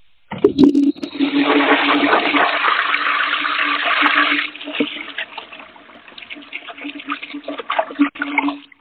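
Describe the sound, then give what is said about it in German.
A toilet flushes: after a sharp click at the start, a loud rush of water roars for about four seconds, then settles into a quieter gurgling trickle of the refill that continues to the end. “Ja, muss ich kurz abspülen. Moment.”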